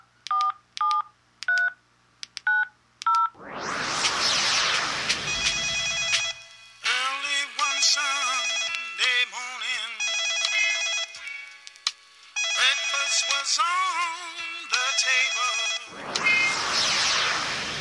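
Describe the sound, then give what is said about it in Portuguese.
Touch-tone dialing beeps open an outgoing phone call, then bursts of line noise and a warbling electronic ringing tone that repeats in patterned runs, with a final noisy burst at the end. “esqueci de ligar pro naipe. Vou ligar agora, vai.”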